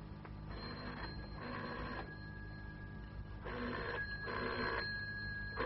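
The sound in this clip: An old telephone bell rings in a few short, quiet bursts separated by brief pauses, a thin metallic trill over low background hum.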